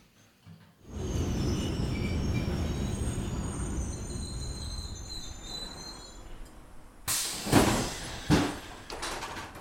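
A train arrives at a station with a deep rumble and high, thin wheel squeals drawn out over several seconds, followed by a few sharp, loud clunks and clatters.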